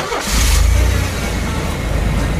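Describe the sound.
A car engine starts and revs during a driving lesson: a loud, rough, low rumble swells early, then settles into a steady, noisy engine drone with no talk over it.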